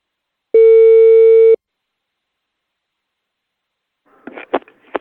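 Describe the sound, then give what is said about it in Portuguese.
A telephone ringback tone sounds as a call is placed: one steady, loud electronic tone lasting about a second, then silence before a voice briefly comes on the line. “Eu vou ligar agora pra Dona Prudência.”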